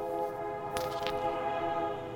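A train horn sound effect: a sustained, steady chord of tones held for the whole clip, with a brief noisy burst partway through.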